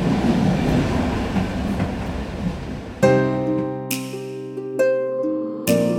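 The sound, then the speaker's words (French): Regional train cab ride between Lyon-Perrache and Saint-André-le-Gaz: a dense rolling rumble gives way to a sustained tonal whine. Sharp clicks recur at regular intervals through the second half. “Un petit voyage en cabine à bord d'un Régio d'Ozène entre Lyon-Perrache et Saint-André-le-Gaz.”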